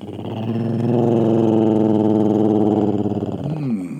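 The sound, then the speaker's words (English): A human voice imitates the growl of a Rougarou monster. It is one sustained, rough, deep growl that lasts about four seconds, loud and alone, without words. “Don't worry. It's just a Rougarou.”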